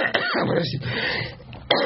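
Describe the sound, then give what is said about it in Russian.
A person coughs: short, harsh, throaty bursts, one at the start and another near the end, with rough breathy noise between them and no speech. “Даже закашлялся.”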